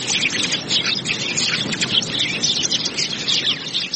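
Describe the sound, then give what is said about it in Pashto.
Many birds chirping in a park, a dense, continuous high chatter with no pauses and no voices. “خو سږکال د خلکو تر غږ د مرغانو شور پکې زیات دی.”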